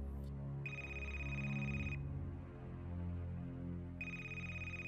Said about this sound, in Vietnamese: Tiếng chuông điện thoại vang lên